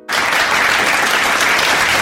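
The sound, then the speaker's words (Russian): Loud ovation breaks in almost at once and becomes a solid roar of clapping. It holds at full, even strength to the end. “И почему здесь возникают овации?”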